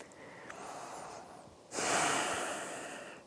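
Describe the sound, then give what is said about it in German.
Deep breathing during a vinyasa yoga flow: a soft, quiet breath comes first, followed by a louder, long, hissing exhale through the nose and mouth. “Atme nochmal tief ein. Mit der Ausatmung drehst du auf in Virabhadrasana 2.”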